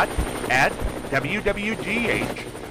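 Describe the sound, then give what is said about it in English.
A news helicopter flies overhead, its rotors beating in a steady rhythmic chop beneath a voice that talks over it. “keep an eye out for the WWGH News Chopper flying high overhead.”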